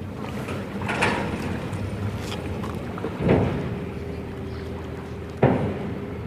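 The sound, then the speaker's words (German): Wind and water wash around a boat at the ferry landing in Kleinschachwitz. Three brief bumps stand out from the steady rushing, and a faint, even hum runs through the later half. “wir sind hier an der Fährstelle in Kleinschachwitz”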